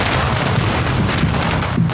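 Firecrackers set off during a Chinese family blessing ritual: a dense, continuous barrage of crackling bangs that blend into a loud, unbroken roar for the whole stretch.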